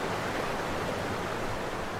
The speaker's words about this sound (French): La cascade de la Gouille Verte est impressionnante.